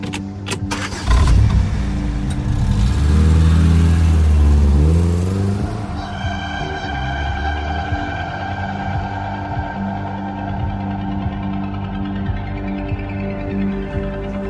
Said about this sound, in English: So let's go for a drive.